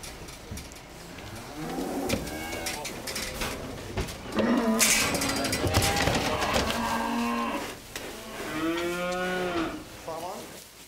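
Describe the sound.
Cattle on a farm on Amrum, horned heifers and a heavy bull, moo repeatedly in several deep, drawn-out bellows with quieter stretches between, over a faint steady background hum.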